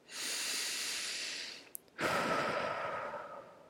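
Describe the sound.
A deep breath, a long airy inhale followed after a brief pause by a fuller, hissing exhale that slowly fades, heard alone without talk.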